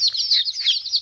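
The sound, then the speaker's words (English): Baby chicks cheeping in a played sound effect: a short burst of rapid, high-pitched peeps repeated without pause, fairly loud and alone. “Just be listening for the sound of baby chicks, and they sound something like this.”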